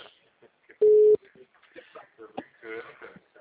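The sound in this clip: A telephone ringback tone sounds once as a single short, steady beep while a call to a bank customer goes through. Talking follows after it.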